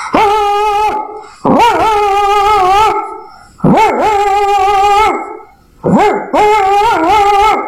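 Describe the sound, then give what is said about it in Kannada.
A grandmother's dog barks and howls in four loud, drawn-out, wavering calls separated by short pauses. No voices are heard. “ಅಜ್ಜಿ ಸಾಕಿರುವ ಒಂದು ನಾಯಿ ಈ ರೀತಿ ಬಗಲುತ್ತಿತ್ತು.”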